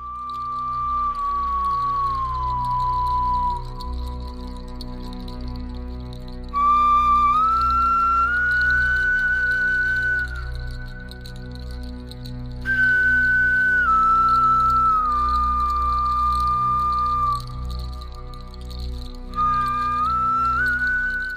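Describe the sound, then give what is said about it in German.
An ancient flute carved from a bear's thigh bone plays a slow, melancholy melody of long breathy high notes that glide between pitches, over a low continuous backing. “wurde aus dem Oberschenkelknochen eines Bären hergestellt. Und das Besondere hier im Museum ist, ein Musiker hat eine ganze CD mit Musik aufgenommen, die er mit dieser Flöte spielt.”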